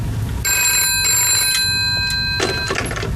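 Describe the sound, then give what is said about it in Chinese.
A telephone rings with a steady, high electronic trill lasting about two seconds over constant low background noise. “电话。”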